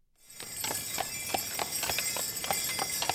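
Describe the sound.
Horse hooves clip-clopping steadily as the horse pulls a holiday carriage around a city block, with many even, sharp hoofbeats over a constant street hiss.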